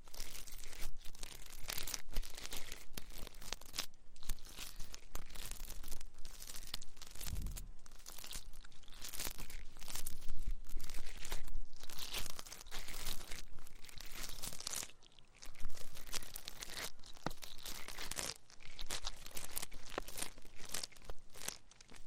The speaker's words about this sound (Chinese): 其实啊，掏耳朵的话可以使人非常放松的